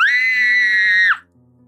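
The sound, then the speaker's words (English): A human voice imitating a banshee's blood-curdling scream: one loud, piercing, sustained high shriek lasting about a second, then breaking off with a brief downward slide into quiet. “A banshee is a thing that has a blood-curdling scream like this.”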